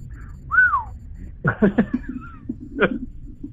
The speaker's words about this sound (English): I hope that whistle came through correctly. Oh my God! Have you listened to that whistle?